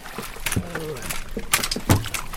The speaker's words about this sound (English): Let me move us out just a little bit. The ride is a little more than a mile. We skim over farmland that looks like a lake.